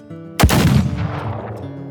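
A single loud gunshot from a gun fired point-blank into a dying man's chest: one sharp, heavy blast followed by a long, slowly fading rumbling decay, with no voices.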